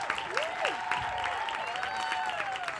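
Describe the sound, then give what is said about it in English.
Crowd applause welcomes the cast panel of The Fate of the Furious at a promotional event: steady, dense clapping throughout, with high tonal whoops or cheers sliding up and down above it. “So without any further ado, let's give it up for this amazing panel”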